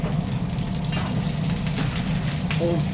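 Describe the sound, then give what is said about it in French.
Carrots, onions and shallots browning in extra virgin olive oil give a loud, continuous sizzle and crackle, with occasional stirring scrapes, and no talk. “carottes, oignons, échalotes. On fait bien colorer tout ça, très important, avec de l'huile d'olive extra vierge.”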